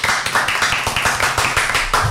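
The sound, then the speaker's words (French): People clapping after a music segment on a talk show. The claps fall in a steady, even rhythm, loud and close together, with no voices over them. “On peut l'applaudir quand même.”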